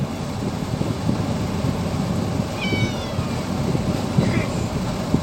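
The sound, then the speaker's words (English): A cat meows, giving a couple of brief, faint, high cries. They sit beneath a constant, dense rumbling background noise. “yeah, good cat. You're a good big man now, aren't you?”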